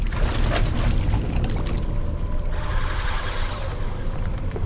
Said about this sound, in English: He enters the hole. He stands in ankle-deep water.